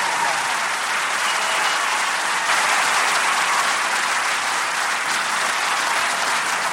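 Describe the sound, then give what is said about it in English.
Loud, dense audience applause for State Senator Ed Murray runs unbroken from start to finish as a uniform wash of clapping. “One more round of applause for State Senator Ed Murray, who's done so much for all people of this state.”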